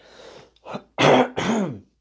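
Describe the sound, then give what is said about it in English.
A person clears their throat in a few rough, raspy bursts. Two soft ones come first, then two loud, harsh ones at the end, with no talk. “excuse me, I just had to clear my throat”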